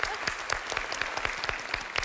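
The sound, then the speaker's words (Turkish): Applause on a quiz game show: rhythmic, evenly spaced clapping at roughly four claps per second, steady and moderately loud throughout. “Olur tamam ikinizi de alkışlıyorum.”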